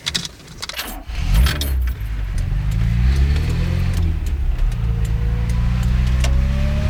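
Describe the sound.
A car drives off. Keys jingle briefly first, then the engine rises into a steady, loud drone, its pitch climbing as the car pulls away and keeps accelerating.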